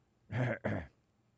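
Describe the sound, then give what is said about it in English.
A single throat clearing, heard alone as two quick, loud, rough voiced bursts separated by a brief break. “I cleared my throat”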